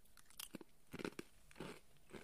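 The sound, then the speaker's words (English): Crunchy bites into a black sesame sweet, followed by chewing: a few faint, crisp crackles arrive in short clusters with soft pauses between them. “I'm going to take another bite before I give my honest opinion here.”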